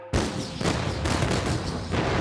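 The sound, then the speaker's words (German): Artillery opens fire in a staged battle of a fictional 1883 French invasion of England: a sudden loud blast, then a few more booms merging into a sustained, rumbling roar. “Die Artillerie eröffnet das Feuer.”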